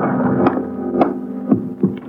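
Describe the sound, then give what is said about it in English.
Elevator running up to the sixth floor of an apartment building: a steady low motor hum with recurring soft throbbing thumps, sounding alone without voices. “We took the elevator up to Tracy's apartment on the sixth floor.”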